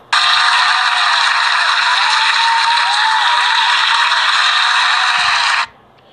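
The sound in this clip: Celebration sound effect of applause-like crowd noise, a dense, steady roar that starts at once, holds for about five and a half seconds, then cuts off sharply, with no talking.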